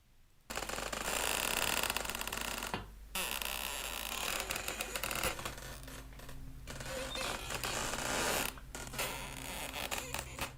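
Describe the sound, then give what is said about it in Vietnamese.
Creaking from the window of an old woman's house swinging back and forth: long, harsh, grinding creaks that run almost continuously, broken by a few short gaps, with no talking. “cánh cửa sổ của nhà bà cụ Thật nó cứ rít lên kèn kẹt đưa qua đưa lại.”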